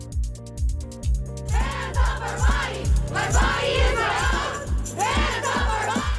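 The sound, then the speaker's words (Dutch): Demonstrators chanting in unison at a protest against a tightened abortion law in Texas: a loud crowd chant driven by a steady, pulsing rhythm of repeated beats that carries throughout. “Handen af van ons lichaam, dat zeggen demonstranten in de Amerikaanse staat Texas, waar deze week de abortuswetgeving is aangescherpt.”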